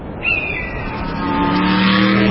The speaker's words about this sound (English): Texas is being overrun by some of the baddest cars to ever hit the road.